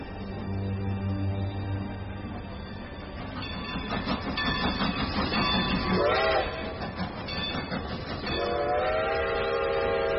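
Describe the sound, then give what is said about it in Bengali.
A goods train rumbles loudly into a station platform with rattling wagon clatter, and horn tones sound near the start and again near the end as the noise slowly builds. “একটা মালগাড়ি প্রচণ্ড শব্দ তুলে ঢোকে, দুলে ওঠে platform.”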